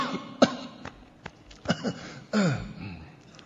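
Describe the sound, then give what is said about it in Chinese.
A deliberate, put-on cough voiced by a performer during a comic routine, a short sharp burst followed by several softer throaty vocal noises. “假装咳嗽，过渡一下。”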